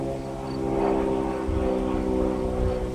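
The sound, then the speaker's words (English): A small airplane flying by during an outdoor walk, heard as a steady, moderately loud propeller-engine drone with a humming tone that holds throughout the three seconds. “Just got a little company here. A little airplane”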